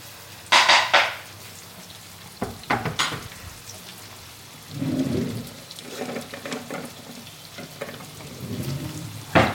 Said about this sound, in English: So give these a fry. Once they've softened a little, then add some seasoning.